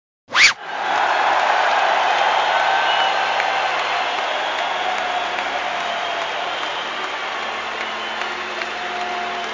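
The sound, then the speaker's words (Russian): An audience claps along at a live music performance. After a short, sharp onset, the applause continues as a steady, loud, dense wash of noise. “Эй, народ! Вас не слышно. Готовим ладоши и хлопаем дружно.”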